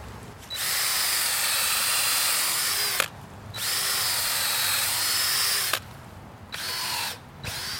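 A power drill boring holes for growing mushrooms from spawn: three runs of a loud, steady whirring whine, two long runs and a shorter final burst, separated by brief quiet pauses.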